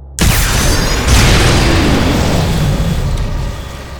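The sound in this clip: A sci-fi disruptor energy beam fires at packed frozen bodies with a loud, sustained roaring blast. It starts with a sharp onset, surges again about a second in, then slowly fades toward the end.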